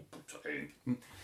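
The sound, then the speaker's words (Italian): A voice imitating a filthy wild boar rooting and grunting in mud: a few short, rough, throaty vocal grunts in quick succession, with the final one the loudest. “Sapete come fanno i cinghiali tutti sudici che sgrufolano nel fango una cosa?”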